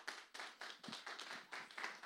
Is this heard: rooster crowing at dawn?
no